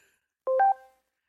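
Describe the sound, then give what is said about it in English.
Skype call sound effect: a brief electronic chime of three quick, clean notes in close succession, fading out after under a second, heard alone. “I've had these weird Skype sound effects for like 20 years. It'll probably go to our voicemail here in a second.”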